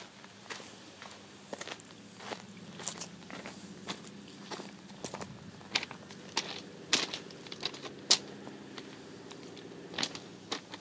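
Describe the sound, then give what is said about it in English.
Footsteps of someone walking sound as many faint, irregular taps, some sharper than others, over a quiet background. “Just wondering how far I can walk along.”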